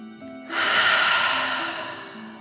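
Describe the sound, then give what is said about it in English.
A deep breath taken during a children's relaxation exercise, in through the nose and out through the mouth like breathing fire: one long, loud, airy breath sustained for about two seconds, heard alone. “imagining you are breathing fire. Ready? Deep breath in and out.”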